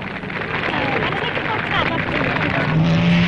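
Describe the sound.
Engine roar from an Alfa Romeo P2 race car competing in a 2-litre formula race: a loud, sustained mechanical drone with a voice talking over it throughout.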